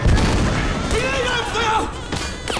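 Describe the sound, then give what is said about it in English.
Gunfire aimed at a street in an audio drama, with a heavy boom at the start followed by a few sharp cracks scattered through the scene while a voice speaks over and between the shots. “He shoots at the street.”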